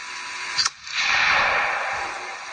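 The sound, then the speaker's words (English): A single sharp rifle crack fired at a bobcat at night, recorded by a night-vision camera mounted on the rifle. The brief report is followed by a steady, fairly faint hiss. “In this video, I could see a pair of red crosshairs trained on a bobcat. Its eyes are glowing because the camera is in night vision, and it's attached to Tom Kelly's rifle.”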